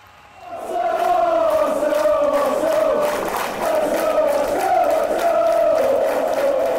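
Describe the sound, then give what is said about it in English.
A football crowd roars at Arsenal's Emirates Stadium on match day. The loud, sustained mass of voices swells into unison chanting and holds steady throughout. “That's what Arsenal's Emirates Stadium sounds like on a match day.”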